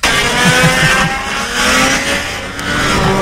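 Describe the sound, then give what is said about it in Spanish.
A Rotax racing kart engine, from karting with 2- and 4-stroke categories, revs loudly and continuously at a high, buzzing pitch with slight swells as it speeds along. “Hoy y mañana, karting en Charata. Se corre la cuarta fecha del RMC Rotax. Categorías de 2 y 4 tiempos.”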